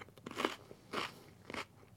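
Food crunches between the teeth while someone eats, three soft, crisp bites at an even pace with brief quiet gaps between them.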